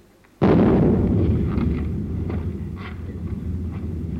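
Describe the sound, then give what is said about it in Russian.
A cannon salute fired in honour of a merchant stepping off his barge, heard as one sudden, loud blast followed by a long, low rumbling tail that slowly fades. “Это, вероятно, какой-нибудь купец-самодур слезает со своей баржи, так в честь его салютирует.”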